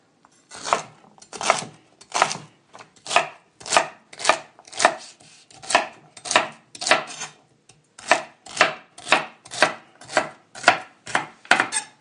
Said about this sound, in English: Sometimes people at home don't spend the time to cut stuff right, and if you have the time, might as well make it pretty.